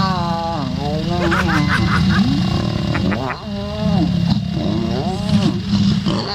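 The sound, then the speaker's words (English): A lion's mating call: loud, continuous moaning growls that waver up and down in pitch, with a brief dip partway through and no pause over about six seconds. “were not prepared for lion mating there. Lion? Yeah, there's a lion.”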